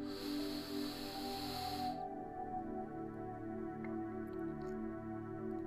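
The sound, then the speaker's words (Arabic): A deep inhale through the nose during a relaxation meditation: a soft breathy hiss that lasts about two seconds and then stops, over steady, gentle sustained music. “خذوا نفس عميق عن طريق الأنف اللي هو اسمه شهيق.”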